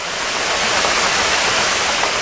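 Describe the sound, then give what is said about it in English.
A large ship recorded underwater gives a steady, dense rushing noise, loud and unbroken from start to end, with no voices. “That's a large ship, by the way.”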